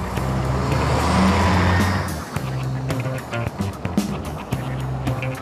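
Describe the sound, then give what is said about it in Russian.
A bus drives through a forest with a low, rumbling engine hum. The hum is louder for the first two seconds, then settles to a quieter drone with scattered rattles and knocks. “Автобус едет через лес.”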